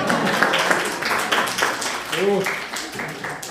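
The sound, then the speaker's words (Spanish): Applause breaks out in a class, with scattered claps that thin out over a few seconds while voices talk over them. “Ay, aplauso.”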